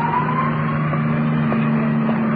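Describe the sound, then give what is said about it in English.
Road noise of an ambulance driving off into traffic, a steady engine and tire hum with a faint tonal whine above it, brief and continuous. “ambulance, disappearing in the traffic.”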